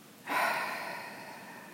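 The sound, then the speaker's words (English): A deep breath exhaled through the mouth, a steady breathy rush that starts suddenly and fades slowly, with no talk. “And one more time, deep breath in. And exhale through the mouth.”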